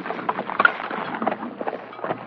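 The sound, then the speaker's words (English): Horses' hooves clip-clop as riders pull up, a steady run of many irregular hoof beats at moderate loudness, with no talk over them. “Let's secure our horses and then see what we can find out.”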